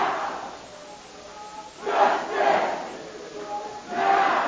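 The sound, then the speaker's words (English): Hundreds of protesters inside the North Carolina General Assembly chant and sing: a massed crowd of voices swells in rhythmic waves, rising louder a few times over a continuous murmur. “That's the sound of hundreds of protesters inside the General Assembly.”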